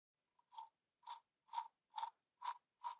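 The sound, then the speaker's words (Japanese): A finger brushing the backs of teeth makes six short, crisp rubbing strokes, evenly spaced about half a second apart in near silence. A tiny click comes just before the first stroke. “次は歯の裏側を磨いていこうか。辛かったら言っておくれよ。”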